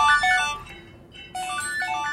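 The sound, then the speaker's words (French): A telephone ringtone plays a bright electronic melody of bell-like notes in two phrases separated by a brief pause, rather faint. “Ah, il y a un téléphone qui sonne. Je vais leur dire que non.”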